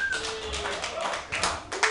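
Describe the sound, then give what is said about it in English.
An open mic comedy audience applauds and cheers for the next comedian. Uneven bursts of clapping and shouts rise and fall, moderately loud, for the full length. “Give it up and keep it going for your next comic, Colin Williams.”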